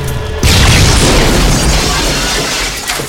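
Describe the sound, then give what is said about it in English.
Grenade blast in a laboratory chamber holding cell samples: a sudden, very loud boom that swells into a sustained roaring rumble and continues to the end. “unclipped a grenade from his belt, and threw it at the chamber holding the activated cell samples.”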